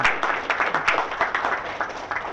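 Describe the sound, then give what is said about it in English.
An audience applauds a presenter with dense, steady clapping that holds at an even level for the whole stretch, with no pauses. “So what I want to do next is just give Alan a round of applause.”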